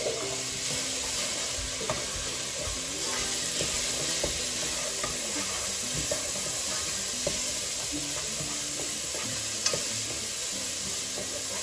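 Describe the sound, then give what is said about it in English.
Rice and chickpeas with garlic are stirred around in a pan, giving soft, steady scraping and shuffling over a low, faint sizzle that continues throughout. “Some rice. Stir that around. Got some chickpeas.”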